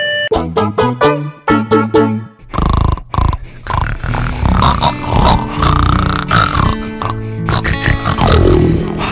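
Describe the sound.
Pigs grunting: loud, dense, rough snorting and grunting that continues for several seconds after a short run of plucked musical notes.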